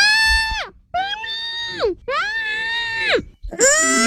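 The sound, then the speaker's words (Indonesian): A child screams for help in a staged lesson about shouting when bothered by a stranger. There are four long, high, shrill cries, each trailing off in falling pitch. “Ajar anak menjerit bila diganggu orang tak dikenali.”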